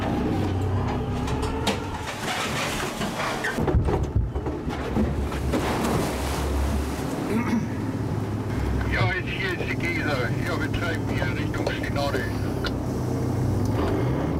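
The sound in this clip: A rescue boat's engine drones steadily as it sets out to reach a vessel with engine failure, with wind noise over the microphone and people talking above the constant rumble.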